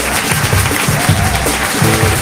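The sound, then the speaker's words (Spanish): Audience applause on a television comedy show, dense, steady clapping that holds at an even, loud level throughout. “Un aplauso para Laura del Val.”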